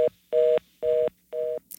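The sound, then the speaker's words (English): Four touch-tone telephone keypad beeps sound at an even pace, each a steady, clear dual tone lasting about a quarter second, with short silences between them. “If you have a touch tone phone, press one now.”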